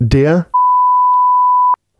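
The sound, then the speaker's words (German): A single steady beep tone, a pure high-pitched whistle lasting just over a second. It follows a brief burst of speech and cuts off abruptly. “Und deswegen gibt's jetzt einen Piepvogel der Woche, und zwar der Piep.”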